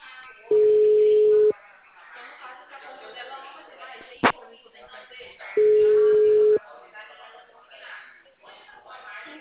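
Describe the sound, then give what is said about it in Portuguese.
Telephone line tone while placing a call: two long, steady mid-pitched tones about a second each, separated by a gap with a sharp click, while people talk underneath throughout. “Tô ligando pra Eva.”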